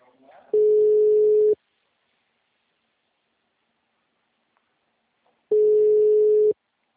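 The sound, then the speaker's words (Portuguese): A mobile phone call's ringback tone plays as two steady, mid-pitched tones, each about one second long, separated by a long silence. “Eu ligo daqui, ligo do meu celular. Chama, chama, chama até cair.”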